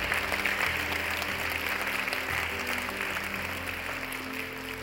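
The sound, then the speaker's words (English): An audience in church applauds to welcome new people: sustained, dense clapping from a crowd at an even loudness throughout, with no pauses. “Come on, can we just put our hands together and welcome some people into God's family today?”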